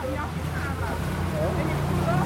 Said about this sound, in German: Wir verlassen das Schiff auf einem Schnellboot.